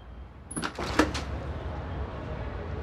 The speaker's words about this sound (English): Then, the door opens and she heads in.